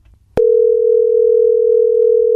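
A telephone dial tone follows the dialing: a single steady, unbroken hum starts abruptly after a click and holds at an even level for about two seconds.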